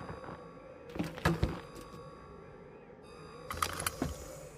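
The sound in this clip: People boarding a rover vehicle: clustered metallic clunks and thunks with rattling, like keys and door hardware, in two bursts separated by a quieter stretch of low engine-like hum.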